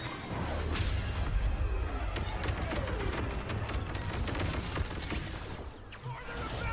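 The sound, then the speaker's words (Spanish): Video game gunfire aimed at the sky, from a shooter shown at a games expo press conference: many rapid sharp shots and blasts over a dense, continuous roar of battle noise, with voices talking over it. “¿Están disparando al cielo? No, es que me han puesto un escudo.”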